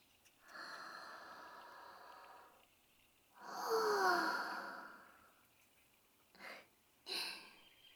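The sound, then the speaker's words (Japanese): Someone takes a deep breath outdoors in natural surroundings: a long, soft inhale, then a fuller, louder sighing exhale, followed by two brief breathy sounds with no speech. “お外でこうして深呼吸すると、私たち女神ですらとても心地いいんです。”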